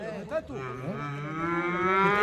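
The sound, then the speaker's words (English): A calf moos during a bullfighting school's outdoor practice class in Albacete, letting out a long, drawn-out call with wavering harmonics that slowly climbs in pitch and grows louder toward the end. “Sebastián Cortés, who heads the bullfighting school here, has taken 12 of his students outside for a practical class. One by one, they get to practice their skills on a calf.”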